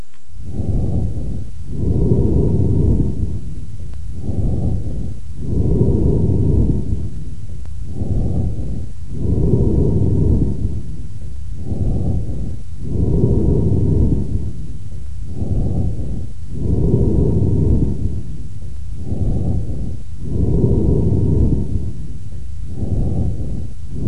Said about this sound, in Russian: Оно напоминает звук, получаемый при вдувании воздуха в узкое горлышко пустого сосуда. Прослушайте амфорическое дыхание, записанное у больного с крупным абсцессом левого легкого.